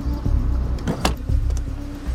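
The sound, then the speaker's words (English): Taxi outside a disused factory, its engine a low continuous rumble with a sharp click near the middle, like a door, plus faint mechanical rattles; no voices. “She gets out and waits on the pavement. The taxi drives off.”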